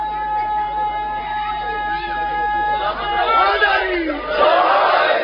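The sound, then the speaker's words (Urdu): Crowd at a religious gathering shouting the slogan Naara-e-Haidari. A drawn-out leading voice is heard first, then a loud collective shout from many voices joins in the second half. “نعرہ حیدری.”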